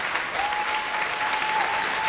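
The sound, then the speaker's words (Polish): Applause from an audience fills the moment, a dense, steady wash of clapping at an even level throughout, with a faint thin tone held beneath it. “proszę Państwa, brawa!”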